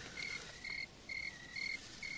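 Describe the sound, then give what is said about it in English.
Crickets chirping in five evenly spaced, high-pitched pulsed bursts, each a fraction of a second long, with short gaps between them in a steady rhythm and no other sounds. “And those crickets, they're clamoring for the fiend.”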